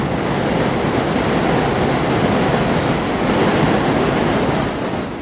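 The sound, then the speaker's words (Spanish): Loud continuous rumbling roar of the elevated 7 subway train passing overhead on Roosevelt Avenue in Jackson Heights, a dense steady wash of rail noise that eases slightly at the very end. “Como se puede notar, estamos debajo del tren 7”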